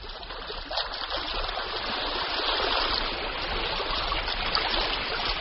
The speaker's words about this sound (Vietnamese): Tiếng bì mịch của sóng nước vỗ vào mạn thuyền nghe mơ hồ như dư âm của bạc thuyền trăng vương vãi vào gió mặn.